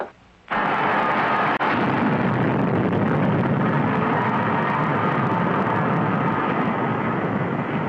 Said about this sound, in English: Clear of space station. We're in free fall. Firing rockets in 2 seconds.